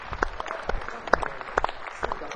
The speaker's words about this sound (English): I love that sort of coward Latin applause.